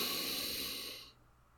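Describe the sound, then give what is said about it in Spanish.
Deep inhalation during a guided breathing exercise: a faint, steady airy hiss that holds for about a second, then stops abruptly. “Una vez más, inhalando profundamente.”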